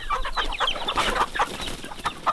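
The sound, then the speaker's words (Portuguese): Chickens clucking in a busy stream of overlapping clucks and squawks that runs without a break, fairly loud, with no talking. “hoje ele explica como as galinhas vieram parar na América do Sul”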